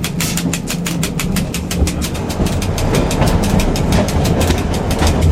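An old railway motor car climbs uphill at about 18 km/h with a loud, continuous rumble and a fast, regular clickety-clack of wheels over the rails throughout.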